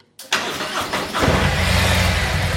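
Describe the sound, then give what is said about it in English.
A motorcycle engine starts: a short burst of starter cranking, then the engine catches with a low rumble and settles into a steady, even idle. “We're going to go ahead and start the bike.”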